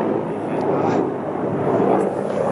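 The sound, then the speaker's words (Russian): Helicopter noise from a helicopter flying by: a steady, broad droning rumble of rotor and engine that holds an even loudness throughout, with no talk. “такой шум, вот, и шум вертолета.”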